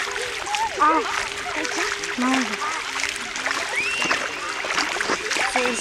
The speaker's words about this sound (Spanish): estoy con mi compañera Brigitte Terraza Cuellar y estamos grabando los sonidos del agua